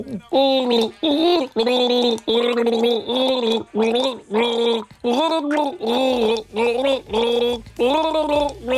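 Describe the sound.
Someone gargles a song melody, with many short bubbling sung phrases in a steady rhythm and shifting pitch, loud and alone, and a low hum joining near the end.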